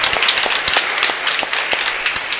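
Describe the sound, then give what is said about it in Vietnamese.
An audience claps on the feast of All Saints: a fairly dense, steady round of applause with distinct sharp individual hand claps popping out of the mix. “Chúng ta hãy chúc mừng nhau một tràng vỗ tay thật lớn trong ngày mừng các thánh của chúng ta.”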